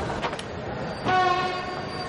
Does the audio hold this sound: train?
yes

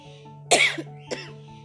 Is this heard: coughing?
yes

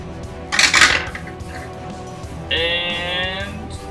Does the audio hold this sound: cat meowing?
no

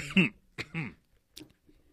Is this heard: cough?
yes

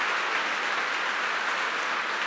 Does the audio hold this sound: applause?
yes

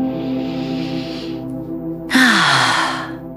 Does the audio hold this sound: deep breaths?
yes

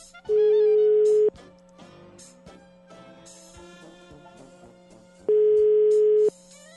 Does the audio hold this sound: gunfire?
no

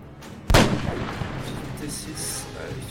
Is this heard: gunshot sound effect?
yes

